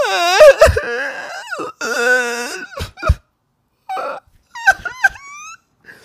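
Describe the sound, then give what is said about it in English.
A human voice imitates the groaning of zombie-like infected creatures from a video game set in abandoned subways: strained, wavering moans and croaks broken by gaps, with short, harsh bursts and clicks. “So as you're sneaking around like abandoned subways, all you hear is the zombies like...”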